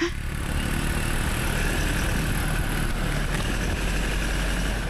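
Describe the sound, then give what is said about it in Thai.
Steady engine drone of a four-wheel-drive vehicle climbing toward a mountaintop, a constant, even rumble with a broad roar and no talk. “ผู้ใหญ่บ้านนายนาพาผมและทีมงานนั่งรถขับเคลื่อน4ล้อขึ้นไปยังยอดเขา”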